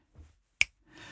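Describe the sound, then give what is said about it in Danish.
A single crisp finger snap, short and sharp, standing alone between quiet stretches of faint low rustling. “Lad os prøve, vi knipser bare, fordi nu er vi her. Ja. Du må godt knipse.”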